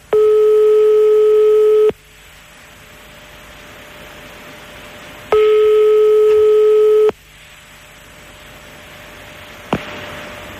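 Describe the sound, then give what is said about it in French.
Telephone line tones on a call being dialed: two long, steady beeps a few seconds apart, each followed by quiet line hiss, then a brief click near the end, with no voices. “Attention, on appelle chez Johnny. Attention, c'est parti.”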